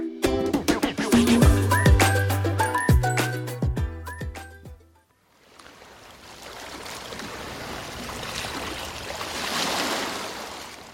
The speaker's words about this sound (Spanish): Normalmente, para cualquiera de vosotros y vosotras, la costa suena así.